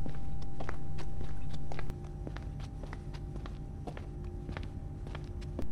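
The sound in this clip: Footsteps of someone walking across a modern lobby toward the reception desk. Many crisp, evenly paced steps sound over a steady background rumble, which drops slightly in level partway through.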